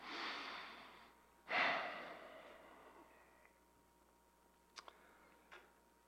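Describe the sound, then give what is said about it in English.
Slow, deep human breathing during a guided moment of quiet: two long, airy breaths, the second sharper and louder at its onset, then a few faint ticks in near-silence. “I just want to invite you to just bow your heads and close your eyes and just take a few breaths with me.”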